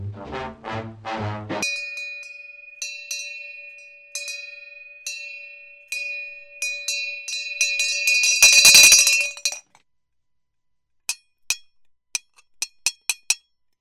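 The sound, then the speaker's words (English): A small bell rings in repeated bright dings that build to a dense, clattering rattle before cutting off. After a silent pause, a few sharp, isolated dings follow. “My bell broke!”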